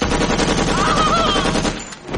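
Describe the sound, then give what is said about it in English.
A submachine gun sound effect for a comedy sketch fires a loud, rapid, continuous burst of shots, briefly drops out near the end, then picks up again. “Freeze! By Jove, it's Gussie Finknottle with a submachine gun. Eat lead, you monocled ponce!”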